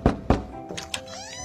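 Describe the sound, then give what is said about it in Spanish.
Two firm, dull knocks on a door in a children's fable about a cicada going to an ant's house, followed by a few softer, scattered taps. “Desesperada, fue a tocar la puerta de la hormiga.”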